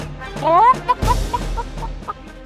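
Hen clucking in an animated children's gingerbread man tale: a drawn-out, wavering squawk followed by a few short, sharp clucks, moderately loud and without talk.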